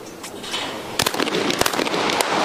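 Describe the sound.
Sharp gunshot bangs at a shooting competition with target pairs. A few loud, abrupt cracks come in quick clusters over a steady hiss of background noise.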